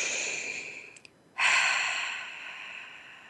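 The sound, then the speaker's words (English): A group draws a deep breath together during a guided eyes-closed breathing exercise: a short breathy inhale, a brief pause, then a louder, longer exhale that slowly fades. “Close your eyes as we take a breath together.”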